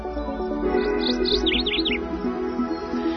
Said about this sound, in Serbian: Pevac i ptičice kao pouzdan znak da smo stigli na kraj još jednog jutarnjeg programa.